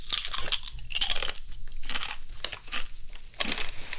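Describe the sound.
Crunchy food being bitten and chewed, giving many sharp, dry crunches in irregular bursts that are fairly quiet and stand alone without talk.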